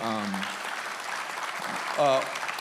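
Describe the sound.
Audience applause in a church, a steady wash of clapping that runs throughout, with voices speaking over it at the start and again near the end.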